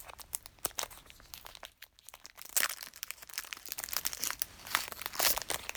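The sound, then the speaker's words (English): Crinkling and tearing of plastic packaging as a TV streaming stick is unwrapped: many sharp, crackly bursts in an irregular run, with a brief lull partway through and no talking. “And we have... the stick itself. Okay. So I'm going to unwrap that first.”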